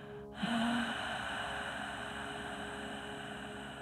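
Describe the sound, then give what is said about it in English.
A slow, deep, calm breath with a soft, steady hiss that begins abruptly and continues smoothly at an even level to the end, with no talking. “audible, kind of like almost a hiss or a whispering sound. So if I took a breath for you, just listen to this one time. This is what a correct breath would sound like.”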